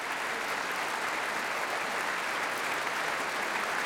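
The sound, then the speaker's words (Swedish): A concert audience applauds the evening's vocal soloists (soprano, mezzo-soprano, tenor and bass-baritone) after an orchestral performance. The clapping is dense and even, a steady hiss of many hands with no breaks. “tar emot applåder och så gör också kvällens solister.”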